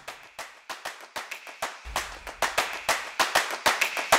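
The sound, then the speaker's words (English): A jingle of rhythmic hand claps in a quick, even pattern, with a low bass tone entering partway through and the claps growing louder toward the end. “Harlan, insert the jingle.”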